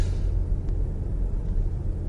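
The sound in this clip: A BMW M5 Touring hybrid cruises on the motorway at about 115 to 130 km/h, producing a steady low road and engine rumble. The drone is even and unbroken, with no other sounds over it.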